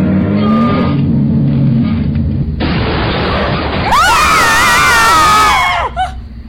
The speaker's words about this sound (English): Oh, it's okay. It just tore off the side mirror.